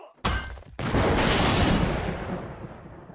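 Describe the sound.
A bomb hidden inside an economy-sized tub of green beans explodes: a short sharp burst comes first, then a loud, crashing blast full of rattling, shattering debris that holds for a moment before slowly fading.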